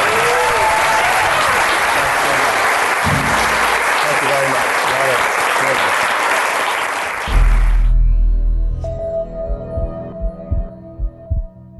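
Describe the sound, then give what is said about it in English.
Loud, sustained applause from a live audience greeting a guest at the close of an event rolls on steadily, then cuts off abruptly near the eighth second. A few softer, low thuds follow in the quiet. “Thank you all for coming. The podcast will be published this weekend. Give it up for Dave Asprey.”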